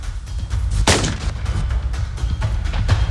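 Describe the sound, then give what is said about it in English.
Gunshots from a fast-draw gun demonstration: many sharp reports in rapid succession over a constant loud low rumble. “Ladies and gentlemen, the fastest gun in the world right here.”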